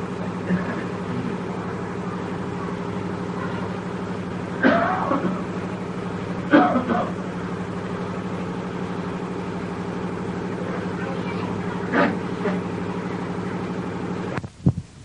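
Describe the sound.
A running electric generator gives a steady, low tonal hum that drones evenly from start to finish. A few brief coughs or throat-clearing bursts rise over it, and a sharp knock comes near the end.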